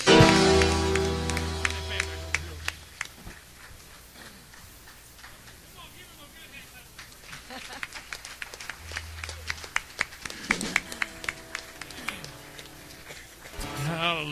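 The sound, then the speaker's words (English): An audience claps in praise to the Lord at a church service. Steady rhythmic hand claps beat over music, thin out in the middle, then return sharper and louder toward the end. “Come on, give the Lord a good hand clap of praise.”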